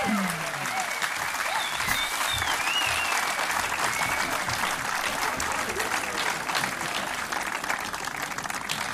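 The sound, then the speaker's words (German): Thunderous applause from an audience welcoming a performer on stage, a dense, steady roar of clapping that holds at full strength for the whole stretch. “er kommt nur hoch bei tosendem Applaus”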